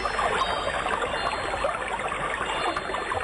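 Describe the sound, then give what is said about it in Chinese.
Flowing water rushes in a steady, dense hiss that stays even throughout, with no pauses or distinct splashes. “这是水流的声音”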